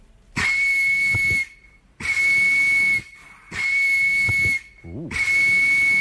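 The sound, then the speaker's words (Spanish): An out-of-tune referee's whistle blows four long, shrill blasts at a steady high pitch, each airy and hissing, with short silent gaps between them. “El C. El sonido desafinado de un árbitro.”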